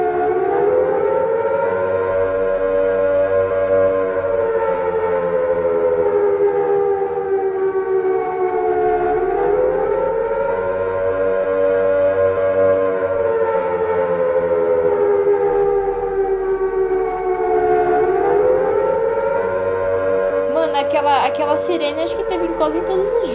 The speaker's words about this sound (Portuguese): coloca aí aquela sirene tocando, que é quando vem as trevas.